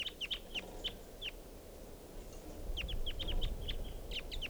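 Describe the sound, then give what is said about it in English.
Wild birds calling near a camp, giving short, high chirps in two quick bursts separated by a pause, over a low rumbling background, with no talk. “Wild bird type 2. And those birds took off.”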